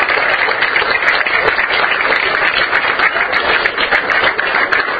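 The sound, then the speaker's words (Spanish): Audience applause at a ceremony handing out certificates and subsidies to community radio stations: dense, steady clapping that stays loud and continuous from start to finish, with no talk over it. “Mientras nosotros les damos un aplauso”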